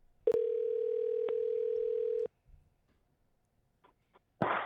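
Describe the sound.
A telephone dial tone opening a call-in line: a flat, steady electronic tone held for about two seconds with a click partway through, then cut off, followed by faint clicks and a short noisy burst.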